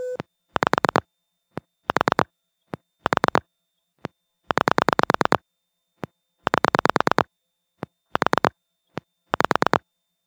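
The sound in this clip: Telephone line sounds heard after lifting the handset and dialing, on a phone line that takes only pulse dialing. A rhythmic series of short buzzing tone bursts is separated by single clicks, moderately loud with no talk.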